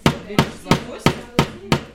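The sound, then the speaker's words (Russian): A hammer drives a nail into a wooden blank with a pre-drilled hole, six sharp, evenly spaced strikes in a steady rhythm, loud and alone. “Гвоздь вбивается в деревянную заготовку с заранее просверленным отверстием”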